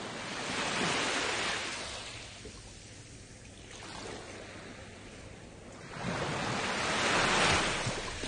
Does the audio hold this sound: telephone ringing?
no

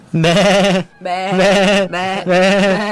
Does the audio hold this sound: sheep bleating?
yes

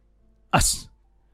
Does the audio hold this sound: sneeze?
yes

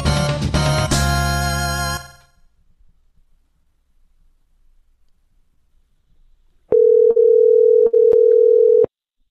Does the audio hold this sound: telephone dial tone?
yes

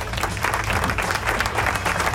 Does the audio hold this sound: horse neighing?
no

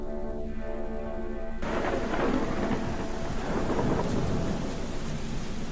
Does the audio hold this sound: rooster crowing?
no

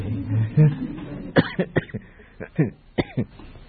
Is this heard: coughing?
yes

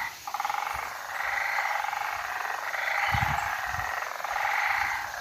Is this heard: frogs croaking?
yes

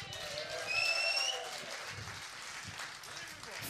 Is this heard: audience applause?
yes

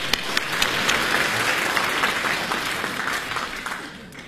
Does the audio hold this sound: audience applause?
yes

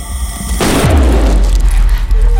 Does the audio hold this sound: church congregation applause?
no

